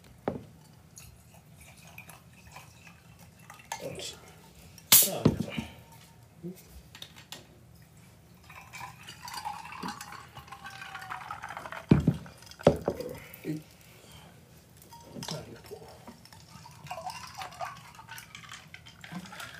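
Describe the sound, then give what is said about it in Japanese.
Sweet potato shochu being mixed with soda water: faint pouring and a few sharper glass clinks, all quiet beneath intermittent talk. “前回はロックだったんですけど、今回は炭酸で割ってみようかと思います”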